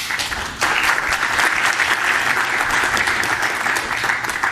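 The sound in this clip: Applause from a conference audience welcoming a speaker to the stage: dense clapping that starts abruptly after a brief quieter moment and continues steadily for several seconds.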